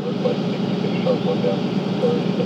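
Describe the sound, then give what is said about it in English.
Fishing boat engine running as the vessel leaves the harbor at Bodega Bay, a steady low rumbling drone with a faint tonal hum, constant in loudness throughout. “On a clear morning, the sun is just rising as Dick Ogg maneuvers his boat out of the harbor.”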